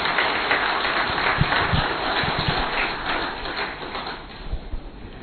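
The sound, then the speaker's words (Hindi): An audience applauding to welcome a Brahma Kumaris speaker to the stage, with steady, dense clapping that eases slightly toward the end. “तो करतल ध्वनि से मैं सभी से request करूंगा, आदरणीय दीदी जी का स्वागत करेंगे।”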